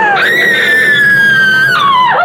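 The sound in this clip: A woman's scream in a science-fiction audio drama: one loud, high, sustained shriek lasting about two seconds, dropping in pitch at the end.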